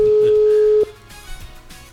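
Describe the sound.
A mobile phone call ringing unanswered: one steady, mid-pitched ringback tone holds, then cuts off abruptly, leaving faint background noise.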